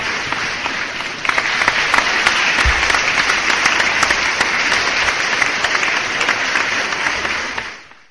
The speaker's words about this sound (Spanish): Vamos a los aplausos.